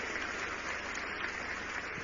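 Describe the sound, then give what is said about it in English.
Congregation clapping in church as a clap offering to the Lord, a dense, even patter of many hands, fairly faint and with no voice on top. “Give the Lord a mighty clap offering. Give the Lord a mighty clap offering.”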